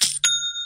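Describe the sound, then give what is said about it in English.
An online store's sale notification chime: a bright, bell-like ding struck twice in quick succession. The second strike leaves several clear high tones ringing on steadily. “It's the sound of another sale on Shopify”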